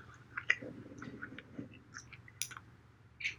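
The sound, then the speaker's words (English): Chewing on a sausage-flavoured jelly bean: soft, wet clicks and squishes repeat in an uneven rhythm, with many small crunchy bites, all faint and close, with no talk. “I'm about to go into one of these Harry Potter beans that I've been looking at this whole episode. Do it. Low key looks like the vomit flavored. Oh, do it. Oh, I better ASMR it.”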